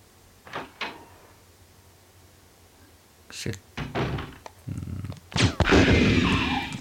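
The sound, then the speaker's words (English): Gunshots in the Resident Evil video game ring out as a few sharp, punchy bursts, separated by gaps and followed by a denser cluster of loud hits toward the end. “Oh, one shot kill. I blew his arms off.”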